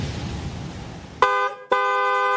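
Car horn honking in two steady, loud, bright blasts, the second longer, following a rough hiss of background noise.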